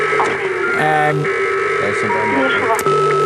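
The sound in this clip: A dial-up modem connection sound: steady electronic tones over a constant hiss, with shifting tonal bursts and a voice talking over it.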